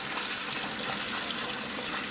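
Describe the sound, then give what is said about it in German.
Water running onto food in a cooking pot: a steady, even hiss of pouring water that holds the same level throughout, with no talk over it. “Jetzt lassen wir erstmal Wasser drauflaufen.”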